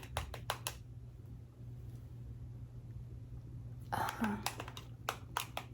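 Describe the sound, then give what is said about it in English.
A quick little sketch is drawn in a personal-attention ASMR roleplay, soft scratchy strokes and taps clustered at the start and again near the end, faint, with whispered talk between. “diagram of everything that I'm kind of looking at right here. Just going to real quickly draw a little sketch”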